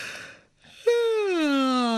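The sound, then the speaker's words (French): A yawn used as a vocal warm-up: a soft breathy intake, a brief pause, then a sustained voiced tone that glides slowly downward in pitch like a relaxed sigh. “j'ai un exercice technique qui est très facile pour travailler le chauffement de sa voix, c'est de commencer par bâiller tout simplement.”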